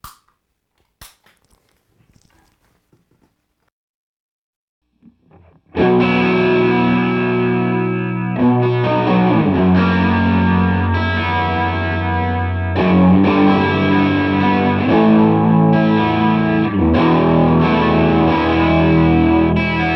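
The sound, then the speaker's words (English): Electric guitar runs through a chorus effect fed by a Rat distortion pedal, straight into an amp with no noise gate. After a few faint clicks over near silence, loud, thick, swirling distorted chords ring out and sustain to the end. “can we hear that chorus with the rat going into it?”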